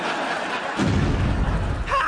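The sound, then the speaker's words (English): An atom bomb explosion sound effect in a comedy sketch: one sudden, loud burst that swells into a sustained low rumbling roar. “Look, they've started using atom bombs. One's just burst on top of your head.”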